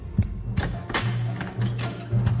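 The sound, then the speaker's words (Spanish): Thuds of a man jumping down from a balcony and landing on the ground: several dull, low thumps spaced unevenly over a steady low hum. “oyó un ruido que venía del balcón de Ana. Se asomó un poco y vio que un hombre saltaba del balcón al suelo.”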